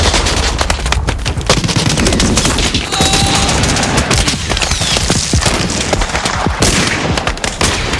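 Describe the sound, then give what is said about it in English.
Gunfire rages during a World War II battle between American Rangers and German troops: dense, rapid machine-gun bursts and rifle shots crackle loudly and continuously, with occasional heavier booms, across eight seconds. “The enemy fires from behind a sand embankment just 2 yards away. German reinforcements run up behind their comrades, and GIs shoot them down as they race past.”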